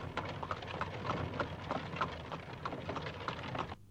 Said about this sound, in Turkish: Araba da geldi artık.